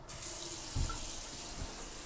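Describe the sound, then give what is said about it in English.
Running water pours steadily from a tap during hand washing, a continuous broad hiss that starts almost at once and holds at an even level, with a couple of soft low thumps partway through. “Hold on. It's hand washing time.”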